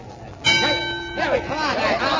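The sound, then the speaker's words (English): A single bell stroke signals the start of a boxing round, a bright clang that rings out for under a second before a man begins talking over its fading tail. “And there's the bell.”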